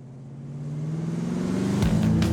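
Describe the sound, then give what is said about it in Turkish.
A Mercedes car engine accelerates as a steady, throaty drone that climbs gradually in pitch and grows louder over about two seconds. “Gaza basın ve etrafınızda akan havanın hızlandığını hissedebilirsiniz. Açgözlü bir motor bu.”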